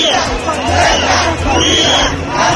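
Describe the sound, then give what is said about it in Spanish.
Crowd noise from a street protest in Ceuta, Spain, where more than 20,000 people took to the streets over a migrant crisis: a continuous, loud roar of many voices with shouting that swells and dips slightly but never stops. “El primero es el sonido de las protestas en muchas ciudades de España en apoyo a Ceuta. Nos quedamos con el de la propia ciudad autónoma,”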